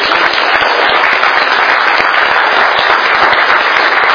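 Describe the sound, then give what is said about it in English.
Audience applause at a morning church service as special guests are welcomed to the front to pray: dense, steady clapping from many hands, loud and unbroken for the whole stretch, with no voices standing out above it. “Put your hands together for them as they come up and begin to pray.”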